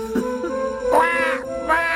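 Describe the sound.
A crow cawing: two harsh, harmonic-rich caws, the first longer than the second, over a steady sustained tone.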